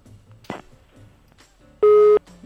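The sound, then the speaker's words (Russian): A single loud busy-signal beep marks a dropped phone call on a radio call-in line: a steady mid-pitched tone lasting under half a second, rising out of quiet background sounds and ending just as suddenly. “звонок сорвался.”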